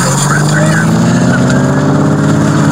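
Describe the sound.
An SUV engine drones loudly as the vehicle spins around and weaves through cones, with a steady, humming tone that holds throughout while voices talk over it.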